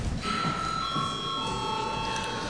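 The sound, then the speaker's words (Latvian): A bell rings in a parliament chamber as a signal, giving a steady, unbroken high ringing tone that lasts throughout. “Un lūdzu zvanu.”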